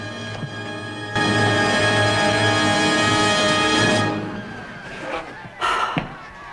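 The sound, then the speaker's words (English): A secret door carved into a wall opens with a loud, sustained grinding scrape lasting about three seconds, then fades to a few quieter knocks and a short burst of noise. “comes in through the secret door carved into the wall.”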